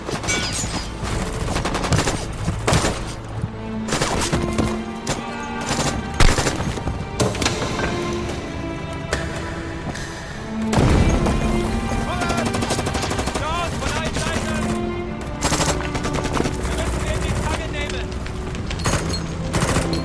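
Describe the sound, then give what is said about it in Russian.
Heavy gunfire from a war film battle scene in which a few surviving soldiers and Poles shoot back at many Germans. Loud, dense volleys and rapid machine-gun bursts run continuously throughout. “Несколько оставшихся в живых бойцов и поляков отстреливаются от многочисленных немцев.”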